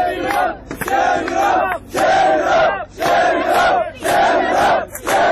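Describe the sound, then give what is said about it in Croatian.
Crowd of migrants at a barbed-wire border fence with Hungary chanting 'Shame on you Europe', loud unison voices in regular rhythmic bursts separated by short pauses. “Na bodljikavu žicu jedna devojka je okačila majicu sa natpisom "Stidi se Evropo". Usledili su aplauz i skandiranje iste poruke.”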